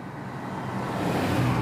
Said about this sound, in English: I mean, I got tourists driving by because it's a beautiful location.